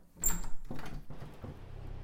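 Door opening and closing, heard as a few faint clunks and soft rattles spread over about two seconds, with light shuffling noise between the knocks.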